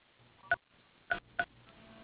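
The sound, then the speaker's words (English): Telephone dial pad keys sound three short, clear tones on an automated voicemail directory as a caller spells a name: one tone alone, then two more in quick succession. “To leave a message, using the dial pad buttons, please spell the name of the person.”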